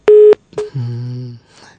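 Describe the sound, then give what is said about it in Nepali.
A caller's phone line cuts out mid-call, marked by a short, loud, steady electronic beep, followed by fainter, lower sustained tones that fade away. “केही कारणवश काटियो होला तपाईँको phone.”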